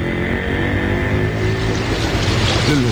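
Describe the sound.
River water rushes in a continuous broad wash, with a low steady hum running underneath. The sound stays fairly even and loud for the whole few seconds, with no voices.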